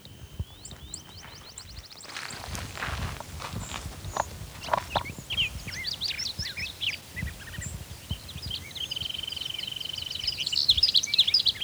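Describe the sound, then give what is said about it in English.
Quiet series of quick, high-pitched chirping bird calls at the start and again near the end. Between them, irregular soft knocks and thuds like footsteps sound under the calls. “It's actually a different bird. I think that's one.”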